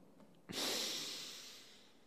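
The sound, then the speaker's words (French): A single sharp breath drawn in, breathy and airy, rising abruptly from near silence and then fading out slowly over about a second and a half. “d'inspirer. Inspirer, expirer, bref, respirer.”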